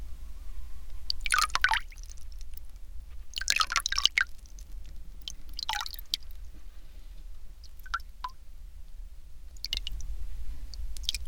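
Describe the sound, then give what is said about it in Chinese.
Water rinses short hair during a hair wash, splashing and dripping in several irregular bursts over a steady low hum, with quiet gaps between the pours. “我们开始进行冲洗吧。”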